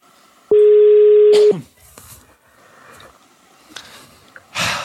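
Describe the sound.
A telephone is dialed for a call: one loud, steady electronic tone lasting about a second, followed by quieter rustling and breathy noises.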